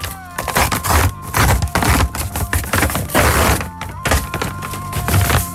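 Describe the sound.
An envelope is opened with crackling, rustling paper sounds and short bursts of tearing and handling noise over several seconds. A faint steady tone sits underneath.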